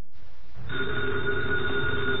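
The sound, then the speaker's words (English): An old telephone bell rings in an office, a bright, continuous metallic ring that starts after a short pause and stays loud to the end. “the ringing of that phone bell means mystery, adventure”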